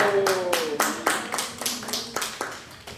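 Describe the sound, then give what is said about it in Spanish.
Crisp hand claps in a classroom lesson, a steady run of many evenly spaced, fairly loud claps, with a voice briefly heard at the start. “¡Aplaudo”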